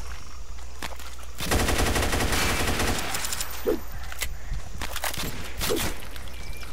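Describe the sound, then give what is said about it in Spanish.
Machine gun fire in a video game: a dense, rapid burst of shots lasting over a second, with a few scattered single shots and clicks before and after it. “Hay otra arma, la Machine Gun también. Está más potente que la metralleta esta.”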